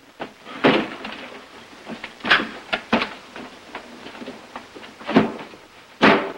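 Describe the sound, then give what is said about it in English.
Hollow wooden thumps and knocks as a door is pulled shut and bumps against a trunk, a few sharp, irregular hits with softer rustling and scraping between them. “He turns and steps in backwards, pulling the door shut and rear-ending the trunk.”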